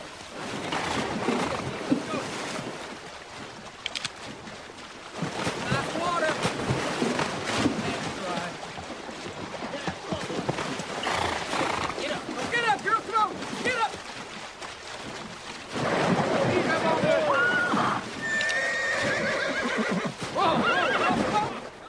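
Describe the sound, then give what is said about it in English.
Horses neighing and swimming across a deep, fast-flowing river with riders on their backs: repeated shrill whinnies rise over loud, constant rushing and splashing water, with voices mixed in. “The colt struggles in the deep, fast-flowing water as the Yankees move to the center of the river. Other horses start to panic as they swim, riders still on their backs.”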